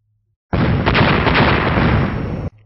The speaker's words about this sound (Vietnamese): Sau 4 tiếng nổ long trời vang lên